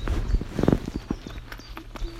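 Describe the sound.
Footsteps of people walking outdoors through woods while foraging: a run of irregular, soft crunching steps over a low, steady background hum.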